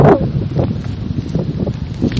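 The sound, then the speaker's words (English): Wind picking up outdoors at a cemetery buffets the microphone in a rough, low rumbling gust that surges and dips without pause for a couple of seconds. “So the wind is now picking up.”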